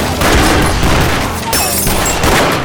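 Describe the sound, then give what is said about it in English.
Gunfire from several men shooting at once, three gunmen opening fire in a shootout in a room where one man fights back with a Colt revolver. A loud, dense burst of overlapping shots runs throughout with no clear gaps. “Smoke drew his right-hand Colt and aimed. The remaining three Mexicans opened fire.”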